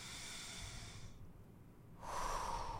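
A deep breath taken during a guided breathing exercise: a steady, airy inhale, a brief quiet pause, then a louder, breathy exhale. No voices.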